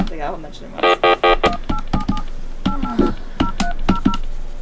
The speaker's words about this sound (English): Oh, wait, I dialed the wrong number.